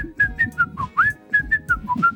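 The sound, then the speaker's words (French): A person whistles a tune in a kitchen early in the morning while buttering toast. A quick, bright melodic phrase of short notes steps up and down in pitch, clear and alone. “je m'étais levé tôt, j'étais dans la cuisine, je me beurrais une tartine, et inconsciemment, comme je savais que Dave était dans cette maison, je pouvais pas m'empêcher de siffloter.”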